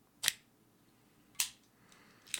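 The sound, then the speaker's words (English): An Aladino Cameroon cigar is cut with a few crisp, sharp snips, each a short bright click standing alone against near silence. “So, that was the Aladino Cameroon getting cut. That's what I'm going to be smoking today with this episode of the podcast.”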